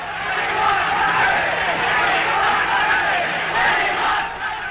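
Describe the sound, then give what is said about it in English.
A rugby crowd chanting in protest after a cancelled game on the Springbok tour: a loud, sustained mass of voices with shouting and a rhythmic chant rising and falling throughout. “The game has been cancelled. Crowd refusing to go, chanting, "We want rugby."”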